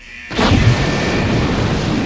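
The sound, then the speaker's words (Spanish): A bomb disposal unit's controlled detonation of a sock, an abrupt loud blast followed by a heavy, sustained rumbling roar that holds to the end. “La unidad de artificieros hizo una explosión controlada del calcetín.”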